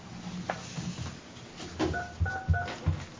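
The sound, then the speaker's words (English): Touch-tone keypad beeps as a telephone number is dialed: three short, steady dual-tone beeps in quick succession, alongside dull low thumps from the key presses, over faint background noise. “Didn't dial it fast enough. Oh, no, I dialed it wrong.”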